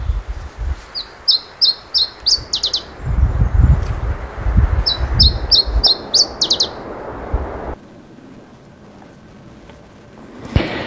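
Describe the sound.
A rare vagrant bird that winters in Africa, heard in Finland, sings an unusual song. Two high phrases each run a few evenly spaced repeated notes and end in quick sweeping whistles, over low rumbling noise.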